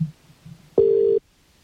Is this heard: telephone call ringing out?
yes